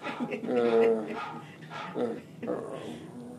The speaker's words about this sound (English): It's not a dog barking, it's my telephone.